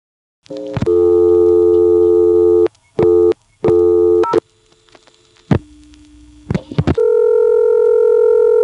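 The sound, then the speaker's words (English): A telephone call connects through an old cord-style switchboard after zero is dialed: a steady line tone breaks off twice, a low hum carries a few clicks, then a new steady tone takes over to the end, with no talking. “This may actually be a cordless switchboard, but it works like an old-fashioned cord board in any case, because there's no provision for zero-plus dialing, and you'll notice the call starts to complete as soon as I dial zero.”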